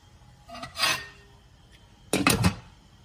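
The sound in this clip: A spoon scrapes briefly around a cooking pot of rice and meat broth, then a louder clattering rattle follows as a lid is set on, with quiet pauses between.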